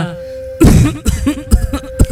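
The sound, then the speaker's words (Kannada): A deep, persistent cough comes as a few rough, low, throaty bursts spaced unevenly, the first the loudest, over a faint steady hum. “ಏನೇ ಆಳದ್ ಕೆಮ್ಮು ನಿಲ್ತಾನೆ ಇಲ್ವಲ್ಲಪ್ಪ.”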